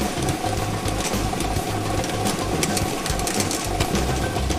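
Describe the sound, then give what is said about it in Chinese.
Rapid mechanical rattle of a lottery drawing machine spinning 30 numbered balls, a loud, steady whirring clatter of dense ball clicks that runs without a break and with no voices. “摇奖机已经正式启动了。通过镜头我们可以看到30个号码球在摇奖机当中正在快速的旋转着”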